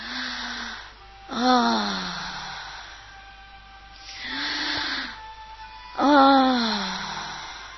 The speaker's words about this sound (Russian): Подышите со звуком. Позвольте себе это. Вдох в живот, выдох в голос.